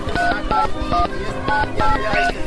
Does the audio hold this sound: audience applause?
no